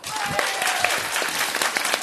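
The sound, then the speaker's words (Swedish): An audience claps for a contestant during a vote by applause: dense, steady clapping from a crowd fills the whole stretch at an even loudness. “Alla som tycker att Martin Melins brorsa borde vinna, klappa nu!”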